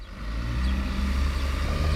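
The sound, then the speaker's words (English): A bus engine drones as the bus winds down a street on a hot summer day, a low, steady rumble of moderate loudness that holds an even level throughout. “On a hot summer day, a bus winds its way down Baker Street.”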